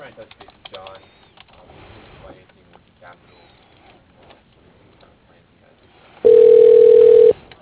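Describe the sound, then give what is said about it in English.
A telephone ring tone sounds while a call is transferred to voicemail. After faint voices and light clicks, one steady, loud, even tone holds for about a second and then cuts off. “Okay, let me transfer you to his voicemail.”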